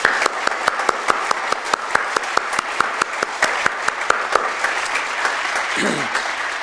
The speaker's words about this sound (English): All right, let's give these folks a hand.